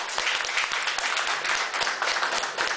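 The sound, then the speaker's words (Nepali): Hearty audience applause welcoming a guest at a Nepali event, a dense, continuous wash of clapping at steady loudness for nearly three seconds. “उहाँलाई हामी जोडदार तालीले स्वागत गरौँ.”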